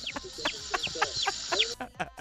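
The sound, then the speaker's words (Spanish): A human voice imitating a chick's peeping, giving a quick series of many short, high, chirpy cheeps at a moderate level. “Te sale idéntico, ¿eh? O sea, sí le hace igualito a un pollito.”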